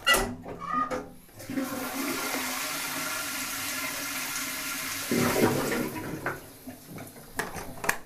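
A toilet with a wooden seat and a cast-iron cistern flushes: a loud gush of rushing water surges for several seconds, then gurgles and trickles away as the flow fades.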